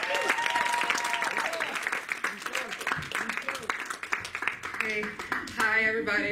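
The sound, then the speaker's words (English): Audience applause welcoming a speaker at a church gathering: dense, sustained clapping with voices, and a tonal sound emerging near the end. “So if you would, put your hands together and make Creesa welcome.”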